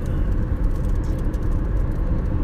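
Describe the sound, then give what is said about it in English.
Steady low rumble of a car driving on the road, an even engine and tire drone that stays constant throughout with no talk. “And I'm driving home.”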